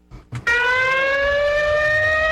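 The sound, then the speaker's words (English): A single loud siren sounds as a steady, harmonic-rich tone that holds and creeps slightly upward, preceded by a couple of brief dull knocks. “So two sirens or one siren? No, just one, one siren. Just one siren.”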